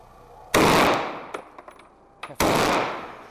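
A hunter fires at close range to finish off a dying wild boar: two loud gunshots, each a sharp blast with a long fading tail, with a few faint clicks between them.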